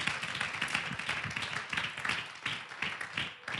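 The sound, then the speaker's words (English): An audience claps their hands during a church worship service, making a steady, dense run of many sharp claps that keeps an even rhythm through the whole stretch. “If you believe that, would you clap your hands unto the Lord?”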